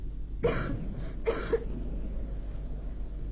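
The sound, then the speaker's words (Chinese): A woman coughing, a few harsh, rough bursts: one cough, then a pause, then two close together, with quiet between them. “海伦的咳嗽声声都震动着我那颤抖的心，这咳嗽声比雷声还要响。”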